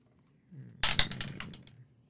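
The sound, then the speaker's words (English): A twenty-sided die rolls during a tabletop fantasy role-playing game, giving a short burst of hard plastic clicks and clatter that settles into a light rattle and fades within about a second. “Would you like to roll to see if the journal has that? Yeah. Okay, go ahead and roll a D. 20.”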